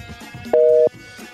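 A telephone busy tone after a call is hung up: one loud, steady electronic beep with a flat two-note pitch, lasting about a third of a second, alone between quiet stretches.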